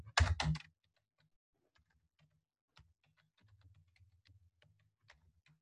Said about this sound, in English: I have trouble typing today.